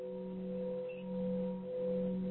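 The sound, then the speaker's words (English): Meditation tones for the heart, pineal and root chakras: several steady, pure pitches hum together in layers, gently swelling and easing in volume, with no voices. “And the tones are for the high heart, the pineal, and the root chakra.”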